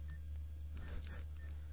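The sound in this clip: Telephone keypad tones as a hotline number is dialed: a few faint, short beeps over a steady low hum.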